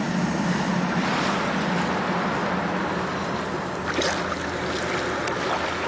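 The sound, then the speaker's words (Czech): Ocean waves and surf wash around a sea rock called Trosečník as the tide comes in: a continuous, rushing roar with wind, steady in loudness and without clear breaks. “Bendy, jsme na skále Trosečníku. Jenže přichází příliv a ona brzy zmizí v hlubinách.”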